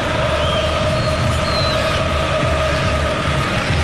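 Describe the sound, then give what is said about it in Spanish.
Dense, steady roar of Argentine fans in a stadium during a football match against Algeria, a continuous wash of crowd noise without clear breaks and no distinct voices. “escuchan ustedes todo el corito del público argentino, el pase que viene de Mahrez, la toca de nuevo para Mandy. Qué lindo se escucha el estadio. Escuchemos, escuchemos ahora el estadio.”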